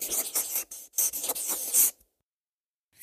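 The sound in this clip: Scratching of a pen or pencil writing something down on paper, a quick run of scratchy strokes lasting about two seconds, then silence before another stroke begins at the end.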